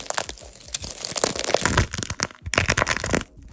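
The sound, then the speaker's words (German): A stress ball coated in wax, plaster or nail polish crackles and crunches as it is squeezed. Many loud, dense cracks run together, with short breaks near the middle and toward the end. “Social Media ist gerade wirklich voll mit so Anti-Stress-Squishies, also so Stressbällen, die komplett eingepackt sind in Wachs, Gips oder auch in Nagellack. Und dann drückt da eben jemand drauf.”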